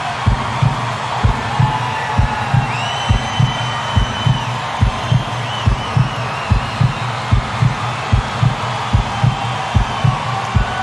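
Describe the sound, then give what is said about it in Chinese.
Steady, low heartbeat thumps pulse in an even rhythm just before a concert starts. The many evenly spaced beats play loudly over a faint, sustained background hum. “音乐会马上开始，听到这心跳声了吗？”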